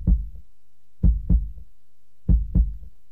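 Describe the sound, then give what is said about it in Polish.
A human heart beats in soft, low thuds, each beat a paired lub-dub, about three beats in all with quiet gaps between, heard alone without talk. “Tak bije serce Piotra Franczewskiego.”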